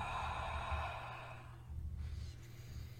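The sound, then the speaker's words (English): A deep breath during guided breathwork meditation, heard as a soft, breathy sigh that lasts about a second and a half before fading into quiet. “And breathe.”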